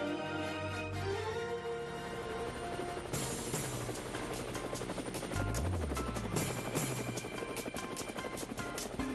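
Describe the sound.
Helicopter sound effect used to mark a segment on a Spanish-language Cuban radio program: a dense, steady rotor roar at constant loudness, layered with other busy sound throughout.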